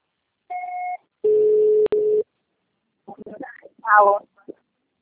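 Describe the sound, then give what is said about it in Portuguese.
Telephone tones on a voicemail line signal the start of message recording: a short tone, then a longer, lower tone broken by a sharp click. Voices follow after a pause. “Grave seu recado. Você só será tarifado após o sinal.”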